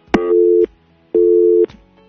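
Telephone busy signal on a failed call: two identical steady, mid-pitched beeps, each about half a second long and separated by a short pause.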